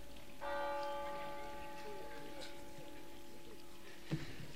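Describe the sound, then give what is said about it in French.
Church bells ring in sustained, pure, overlapping tones that hang and decay slowly, fairly soft and steady throughout, with a brief knock near the end. “Ça repose, les cloches. Enfin, un son pur par rapport à mes paroles polluées, là.”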